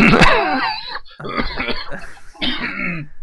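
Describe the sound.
Throat clearing and rough coughing from a tickle in the throat: a few harsh, voiced bursts in quick succession, loud and close, with short gaps between them.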